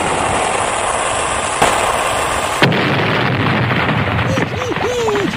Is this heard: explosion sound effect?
yes